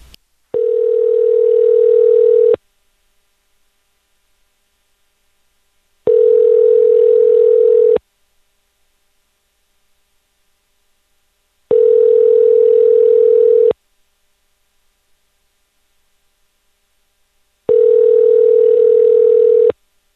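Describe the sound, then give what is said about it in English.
Ringback tone of an outgoing phone call that ends up at a voicemail greeting: four long, steady, low-pitched tone bursts of about two seconds each, separated by regular silent gaps, with nothing else heard. “You should be able to hear rings.”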